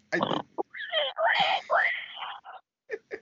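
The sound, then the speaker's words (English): People imitate pig noises, making breathy grunts, oinks and squealing wails in a quick run of short and drawn-out bursts. “here we are, we're making pig noises.”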